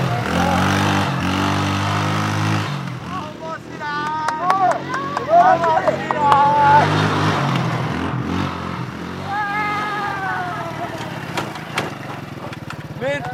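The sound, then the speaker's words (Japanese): Engine of a speed-limited buggy driving on a dedicated buggy course, a steady low droning hum that fades and returns, with people talking throughout. “ある程度スピードを調整させていただいてます。で乗る場所はこちらのバギー専用コースになってます。”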